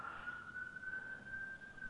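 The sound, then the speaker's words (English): A police siren sound effect, a faint, steady high tone that rises slightly in pitch as it holds, sounding alone over a soft low rumble. “Oh no, that's the sound of the police.”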